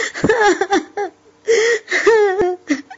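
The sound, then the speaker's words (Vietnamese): A voice acting out a woman bursting into tears: loud, wavering whimpers and sobs broken by gasping breaths, coming in several uneven bursts. “Chị Cung khóc ồ lên.”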